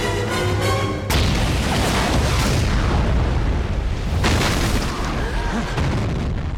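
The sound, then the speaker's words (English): A massive blast as a Tallboy missile is set off by a claymore among trees and shrubs. It bursts in abruptly after a short lead-in, then rolls on as a loud, deep roar that surges again partway through. “The claymore ignites the Tallboy missile, which erupts into a mushroom cloud of smoke and flame.”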